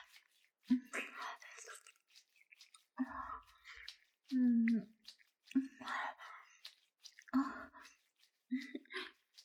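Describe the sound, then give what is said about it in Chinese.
Crunchy chewing of a fried chicken cutlet, a string of crisp bites and mouth sounds in separate bursts, with soft voiced sounds between them. “这鸡排真的好好吃。”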